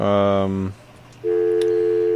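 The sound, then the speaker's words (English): A campus telephone line gives its dial tone: a steady, mid-pitched electronic tone that begins after a short, buzzy harmonic sound and a brief quiet gap. “Okay, that's our dial tone, our pulsing dial tone.”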